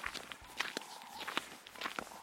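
Footsteps crossing a wide sandy strip used as a firebreak in Kruger National Park, a steady series of soft, gritty crunches at walking pace, fairly faint with no talk.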